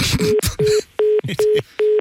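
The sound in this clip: Repeating beep tone after a phone call is cut off mid-survey: five short, evenly spaced mid-pitched beeps with even gaps, the first partly under a brief voice.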